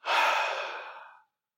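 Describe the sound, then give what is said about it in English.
An audience's collective deep breath out during a guided moment at a talk: one broad, airy whoosh lasting just over a second that starts strong and gradually fades, with no voices. “Can I have everyone take a nice deep breath in? Out.”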